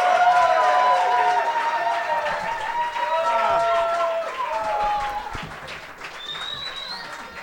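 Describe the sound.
Loud applause and cheering from a live comedy audience in San Diego greet three comedians coming onstage, a dense, sustained wash of clapping that eases slightly toward the end.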